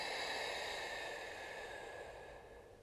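Slow, deep breathing during a guided belly-breathing exercise: one long, airy breath heard alone, steady at first and then gradually fading.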